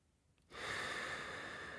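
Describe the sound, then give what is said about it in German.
A deep breath drawn in through the nose, one long, steady inhalation that starts abruptly after a brief quiet and holds evenly to the end. “Ich nehme einen tiefen Atemzug, sauge diesen belebenden Geruch ein”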